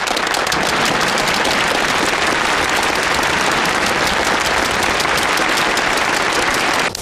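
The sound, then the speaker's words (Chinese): Dense, loud applause from an audience at the opening of a gala evening, an unbroken wash of clapping that holds steady before cutting off abruptly at the end. “热烈欢迎铁道游击队联欢晚会现在开始。”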